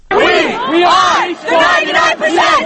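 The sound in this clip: Occupy Wall Street protesters in Zuccotti Park shout slogans together, loud chanted phrases from many voices in unison separated by short pauses.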